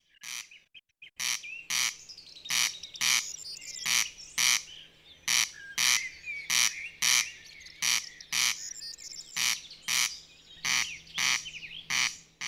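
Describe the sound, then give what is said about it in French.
A male corncrake sings its rasping crex crex song at night in a field, a long, loud run of harsh, dry pulses repeating in a steady, even rhythm with no other sound over it. “C'est d'ailleurs de la sonorité de ce chant si particulier qu'il tient son nom latin, le crex crex.”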